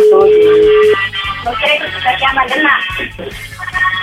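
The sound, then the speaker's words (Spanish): A telephone ringtone opens with a steady tone for about a second, then turns into a busy melodic passage over a low, repeating pulse. “Está llamando el teléfono, ya vimos el ringtone.”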